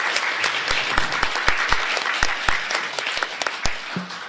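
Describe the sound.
Applause welcomes a speaker to the stage. Individual sharp claps stand out clearly in a loose, moderately sized burst of clapping that thins and softens near the end.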